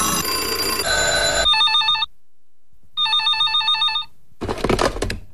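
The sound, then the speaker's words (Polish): A newsroom telephone at a radio station rings in two clear bursts of bright electronic trilling separated by silence, after an opening stretch of other sound and before a final noisy clatter. “Nasz redakcyjny telefon czeka. Radio Kanał dla ciebie. Zadzwoń. No, dzwoń.”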